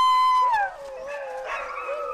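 Sled dogs howling before dawn ahead of a 43-mile training run: a long, wavering howl slides downward in pitch, then overlapping howls and yips carry on steadily at moderate volume.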